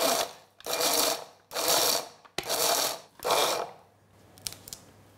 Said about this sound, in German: Und ich habe hier 50 Gramm Walnusskerne und 2 Esslöffel Zucker. Und das mahle ich jetzt zu geriebenen Nüssen, wenn man so will.